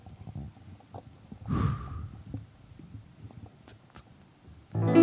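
A group breathes in together once, making a single brief airy inhale, then quiet surroundings with faint small ticks and a louder sound entering at the very end.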